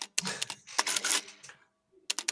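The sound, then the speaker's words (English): An adding machine sound effect, with its paper tape feeding up: sharp mechanical clacks and a whirring, ratcheting burst, a short silence, then another quick flurry of clicks. “I'm gonna put in adding machine that where the tape kind of comes up and yep. Yeah, that's gonna go in right here.”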